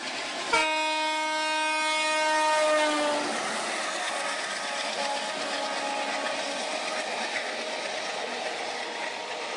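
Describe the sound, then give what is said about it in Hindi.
An Indian train's horn blasts loudly for about three seconds, its pitch dropping at the end as it passes, then gives way to the steady rumble and rattle of the train rolling by. “आपने train की आवाज तो सुन ली, background में भी सुन रहे हैं।”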